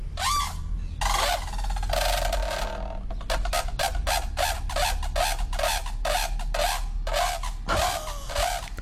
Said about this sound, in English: They trumpet, they call it. Oh, really? Do you want me to play it for you? Yes. Yes, please. Here you go. Here's a trumpeting brolga for you, Christine.